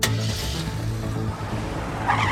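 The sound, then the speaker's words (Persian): A video game car drives with a steady engine drone and tire skidding, loud and continuous throughout, with a brighter hiss rising near the end. “ماشین سواری باحاله.”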